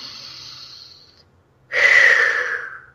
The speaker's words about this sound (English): Let's see if we can just breathe